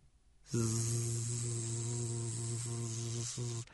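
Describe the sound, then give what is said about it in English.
Bee buzzing, framed as a bee giving a haircut for bee ASMR: a low, even, droning buzz begins abruptly and holds for about three seconds, broken by a few brief dips before it cuts off. “and that's one of our luxury ones. That's a bee giving a haircut.”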